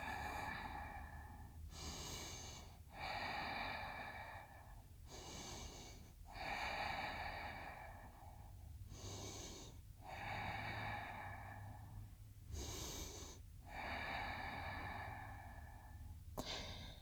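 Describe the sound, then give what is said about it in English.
A series of deep, slow yoga breaths taken while folding forward, steady inhales and exhales alternating in a regular rhythm, each breath a soft airy rush with brief pauses between. “Exhale, hinge and fold forward. 5 deep breaths.”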